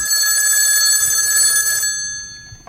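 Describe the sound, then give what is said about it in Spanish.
A telephone rings on an outgoing call with one loud, sustained electronic ring of bright, layered tones, which cuts off and fades into quiet low noise. “Al aterrizar en Madrid, realizamos una llamada a otro viejo conocido.”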